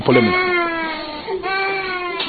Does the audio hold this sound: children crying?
yes